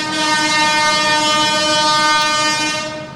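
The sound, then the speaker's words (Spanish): Train passing with its horn blowing: one loud, steady, harmonic-rich blast held for about three seconds, then easing slightly at the end, with no voices. “Qué lindo que suena el tren.”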